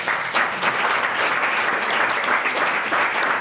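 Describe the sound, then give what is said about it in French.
Audience applause, a dense steady patter of many hands clapping at a moderate level, unbroken from start to finish. “On peut applaudir toutes ces belles définitions.”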